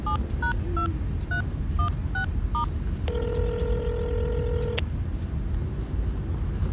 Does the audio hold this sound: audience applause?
no

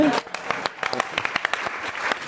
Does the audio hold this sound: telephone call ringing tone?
no

